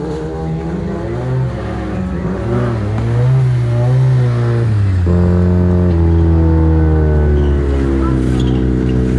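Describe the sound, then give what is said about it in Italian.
Race car engine revving, heard from inside the car during a race, loud and continuous, its pitch climbing and wavering before dropping sharply midway, then holding a steadier, higher drone. “Intanto ritorniamo anche all'interno della vettura di Solis Zanini.”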